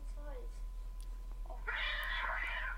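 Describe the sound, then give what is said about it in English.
Cat meowing: a short rising cry followed by a harsher, noisy yowl near the end, fairly faint, with hushed voices around it. “That's a cat, isn't it?”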